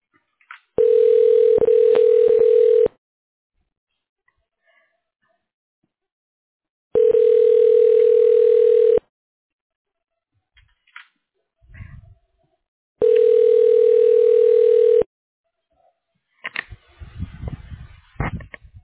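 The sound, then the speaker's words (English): Three long, steady ringback tones play while an automated phone system connects a call. Each lasts about two seconds and is separated by silent gaps of equal length, with faint scattered noises near the end. “Please wait a moment while we connect your call.”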